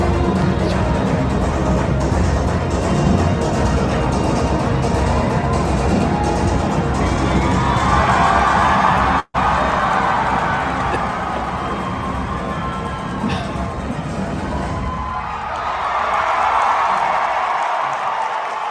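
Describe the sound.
An audience cheers, whoops and claps at a special screening of the film RRR during a song, a loud, continuous roar of shouts and applause with one brief dropout midway.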